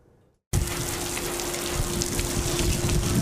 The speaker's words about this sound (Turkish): İşçilerin sendikacılara yaklaşmasını engellemek için fabrikanın önüne su fiskeleri döşenmiştir. Fiskeler tekrardan açılıyor bakın. Bakın sırayla su fiskelerine su gelmeye başladı.